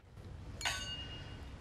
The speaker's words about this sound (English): They clink glasses.